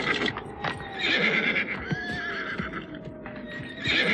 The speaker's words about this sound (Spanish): Algo discutieron entre ellos, mientras los animales relinchaban con coraje.